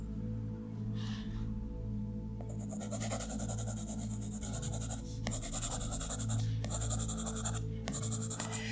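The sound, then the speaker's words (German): Pen strokes scratching across paper during quiet drawing, a dense run of soft scraping that starts about a third of the way in and continues with brief pauses over a steady low hum. “Ich gebe uns jetzt einfach mal circa 15 Sekunden, wo wir ganz ruhig zeichnen.”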